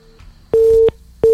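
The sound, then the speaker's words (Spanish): Telephone busy signal after a radio call-in line drops: one steady, mid-pitched tone burst and the start of a second, each loud and even, separated by a short gap of faint hiss. “¿Qué pasó? Se fue la comunicación, vamos a la otra línea.”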